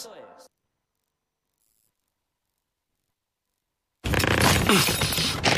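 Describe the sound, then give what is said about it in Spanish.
A strained zip and rattle as someone forces an overfull suitcase shut: a faint brief sound opens, a long silence follows, then a loud, dense burst of rasping, clattering noise runs to the end. “¿Qué te pasa? Que no me cierra la maleta.”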